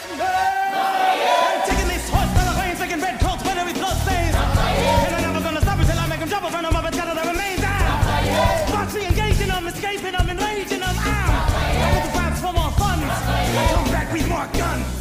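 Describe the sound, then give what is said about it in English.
An audience cheering at a Hamilton performance after a fast, French-accented rap about the Revolutionary War: a loud, sustained roar of screams and yells that fills the whole clip without letting up. “And you can hear the audience lose their goddamn mind.”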